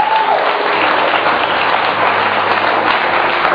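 A church audience applauding during a worship service to praise God for families: steady, dense clapping that holds evenly for a few seconds, with no voices standing out.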